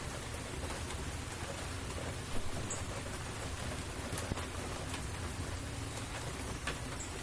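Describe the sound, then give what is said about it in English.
Heavy rain falls outside over a misty field as a dense, steady hiss that holds at an even level throughout, with a few faint brief clicks and no voices. “now the rain's really coming down and there's kind of a mist out in the field.”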